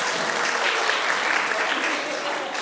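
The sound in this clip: Applause from an audience at a Friday evening pizza gathering, dense steady clapping that holds an even level throughout and eases slightly at the end.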